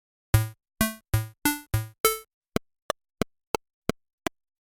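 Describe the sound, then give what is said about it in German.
Video game style sound effects: six buzzy, harmonic bleeps in quick succession, then six shorter, thinner blips at a steady, even rhythm, with no voices. “Es wird symbolisiert durch die Klangästhetik eines Computerspiels.”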